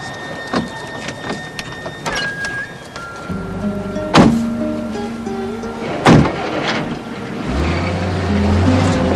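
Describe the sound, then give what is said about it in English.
A pickup truck pulls away down a dusty track: two heavy thunks ring out a couple of seconds apart amid quieter clatter, then a low engine rumble starts and carries on to the end. “The truck drives off. The group of well-wishers wave as it heads down a dusty track.”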